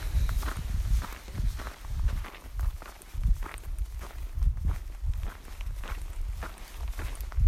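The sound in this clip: Footsteps of a hiker climbing a long trail: many steady, scuffing steps in a regular rhythm, moderately loud and heard alone without talk.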